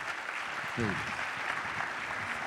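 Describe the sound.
A church audience in Memphis applauds to welcome a visiting preacher, a steady, moderate patter of clapping with a brief voice calling out early on.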